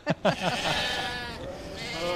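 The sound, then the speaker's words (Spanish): Sheep bleating from a flock that grazes a park for conservation: two short sharp bleats open, followed by a long, wavering, nasal bleat that carries on nearly to the end. “Ovejas.”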